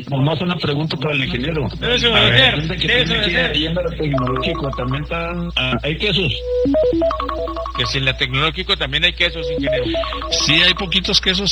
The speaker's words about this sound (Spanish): Tengo una llamada.